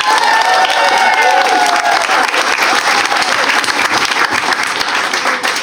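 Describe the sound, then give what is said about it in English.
A studio audience at a comedy panel game show cheers and applauds as a guest expert, a criminal defence lawyer, is welcomed on, with loud, continuous clapping and shouts of cheering throughout. “Very unusual for a lawyer to be cheered onto this platform.”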